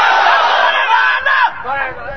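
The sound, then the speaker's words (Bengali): A crowd chants a slogan in unison at a religious gathering, many voices shouting together in a loud, strained burst that drops off sharply, then a somewhat quieter, ragged continuation of the chant. “Slogan দিলে ভালো করে দিবেন, যেন শয়তান এই নদী পার হয়ে অনেক দূরে চলে যায়, এরকম মরা স্লোগান দেওয়ার দরকার নাই।”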